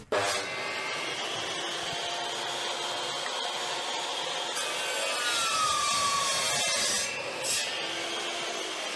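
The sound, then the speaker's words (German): Wood being sawn and worked by a class in a school woodworking room, a continuous rasping, scraping noise at an even level, with a couple of sharper scrapes near the end. “Also das ist der Werkraum, wenn man hört, ziemlich laut.”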